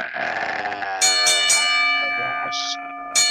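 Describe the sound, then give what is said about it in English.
Bell rung several times, each bright metallic strike leaving a long, sustained ringing tone that overlaps the next, loud and without talk. “why don't you go ahead and ring the bell.”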